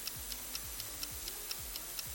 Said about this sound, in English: Where's the timer? Timer, do your job.